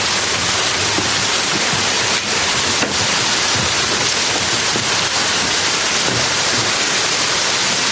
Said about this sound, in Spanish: Afuera llueve mucho.